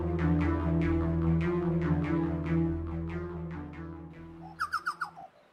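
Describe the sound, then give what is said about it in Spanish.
Chucao tapaculo call: a quick series of five loud, pulsed notes near the end, following a stretch of sustained tonal sound with plucked notes. “El chocao. Esta pequeña ave es conocida por la ciencia con el difícil nombre de Celorchilus rubecula.”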